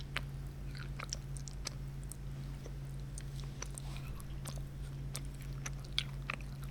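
Quiet chewing of Hershey's milk chocolate: many small, soft mouth clicks and sticky crunches scattered irregularly over a faint steady hum.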